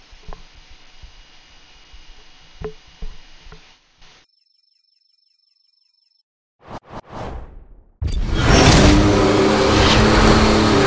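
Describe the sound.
Police car engine revving in a racing video game built around high-speed pursuits. Quiet game sounds and a steady beep come first, then a few quick whooshes, then a loud, sustained engine roar fills the last few seconds.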